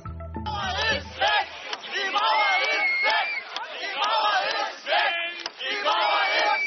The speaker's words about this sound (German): Diese Geräusche des Mauerfalls begrüßen den Besucher auf dem Weg nach oben, zur ersten Ausstellungsebene des Jüdischen Museums.